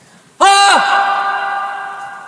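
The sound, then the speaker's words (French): A hoarse human cry rings out in a reverberant hall with about four seconds of reverberation. One short, harsh shout drops in pitch as it ends and leaves a long echo tail that slowly fades. “On sent tout de suite le musicien et ce cri rauque dans un corps frêle, c'est quelque chose d'effrayant, non ?”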